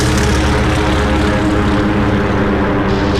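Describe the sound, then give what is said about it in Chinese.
Propeller aircraft engines roar as a squadron of torpedo bombers takes off to attack an enemy fleet. The engine noise is a dense, loud, steady drone that does not break for the whole clip. “他们就起飞去袭击日军舰队了。首先起飞的是第8鱼雷轰炸机中队。”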